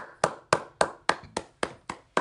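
Hands clap eight times at a leadership summit fireside chat, in crisp, evenly spaced claps at a steady moderate pace that sound like a single person clapping.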